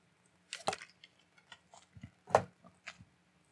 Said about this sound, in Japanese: あちなみにさっきからぺちゃぺちゃ、あの、飲み物飲んでるけど、えー、これスターバックスのね、えー、ベンツィ、ドリップアイス、